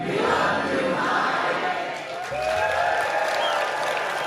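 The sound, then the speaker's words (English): Telluride film festival opening-night audience applauding and cheering for director Mike Leigh. Dense clapping mixes with shouts, dipping briefly midway before returning at full strength. “And the Telluride audience were prompted to let Mike Leigh know just how much they appreciated him.”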